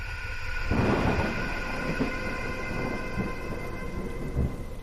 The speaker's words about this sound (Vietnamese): Trời càng mưa nặng hạt, tiếng sấm chớp vang rền như muốn xé toang cả bầu trời.